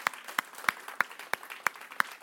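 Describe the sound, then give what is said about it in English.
Clapping during a church sermon on marriage: a steady beat of sharp hand claps, about three per second, with seven strong ones standing out and fainter claps in between. “I'll tell you, I have to clap for that one.”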